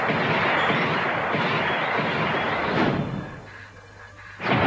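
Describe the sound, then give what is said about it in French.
Gunfire and explosions from the video game Alien Trilogy as aliens are shot and blown up: dense, loud blasting that runs on steadily, eases to a quieter stretch near the end, then flares into a final burst. “Une petite bébête qui courait dans l'herbe, je l'attrape par le clic, je l'explose à coups de... Oh, ah, vous êtes là? Je donnais une petite leçon de savoir-vivre à tous ces extraterrestres sur Alien Trilogy.”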